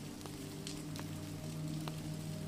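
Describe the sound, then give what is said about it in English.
Steady rain falling on a night at a cottage, heard as a continuous soft hiss with scattered small drop ticks, faint and even throughout. “The falling rain helps guide you into a peaceful slumber,”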